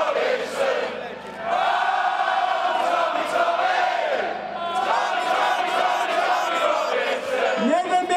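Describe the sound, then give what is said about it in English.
A boisterous crowd of about 500 people outside the Old Bailey Central Criminal Courts in central London shouts and chants loudly and continuously, with many voices rising and falling together in rally-style cries. “And I am standing amidst a boisterous crowd outside the Old Bailey Central Criminal Courts in Central London.”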